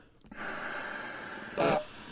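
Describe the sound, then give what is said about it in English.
A person blows out a deep breath as a long, steady, breathy hiss lasting about two seconds, with a brief louder puff near the end. “And he blew. And he blew.”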